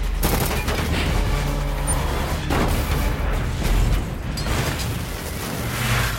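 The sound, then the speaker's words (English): A vehicle explodes into a fireball after a device is dropped inside it, a loud, sustained, rumbling roar with crackling bursts that fills the whole passage and barely fades. “One vehicle erupts in a fireball, the other flips over and slides on its roof.”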